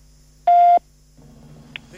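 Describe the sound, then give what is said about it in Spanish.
A single short, steady voicemail beep sounds after the greeting, loud and clean, followed by low line hum. “Bienvenido al correo. Mirá. De voz de Antel. Vamos. Por favor, deje un mensaje. Después del tono, después del tono.”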